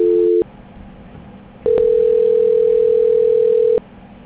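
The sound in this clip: Telephone line tones during a call transfer: a short steady tone, a pause of faint line hiss, then one long unbroken tone lasting about two seconds before cutting off, with no talk.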